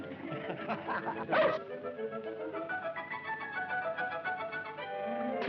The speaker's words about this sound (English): Hey, how about that dog? Well, Robinson Crusoe had a dog here.